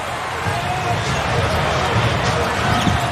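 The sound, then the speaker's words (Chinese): A basketball is dribbled during a game, its bounces thudding under continuous excited commentary and crowd noise. “乔今天这个运球很溜啊”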